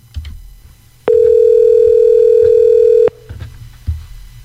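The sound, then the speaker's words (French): A telephone dial tone plays while a call is being placed: one steady, unbroken, mid-pitched tone lasting about two seconds. Quieter background noise comes before and after it. “Donc, on l'appelle à l'instant. Elle s'appelle Charlotte. On va voir si elle va répondre.”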